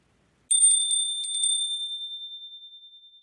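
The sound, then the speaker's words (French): A small bell rings as a page-turn cue, a quick double ting twice in a row, bright and high-pitched, with a clear ringing tone that slowly decays and wavers after the strikes, heard alone without talk. “À chaque fois que tu entendras cette cloche, il te faudra tourner la page.”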